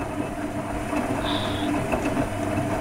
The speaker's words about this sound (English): It's actually the sound of me thinking about if I've put my undies on the correct way. It's the cogs turning inside your head,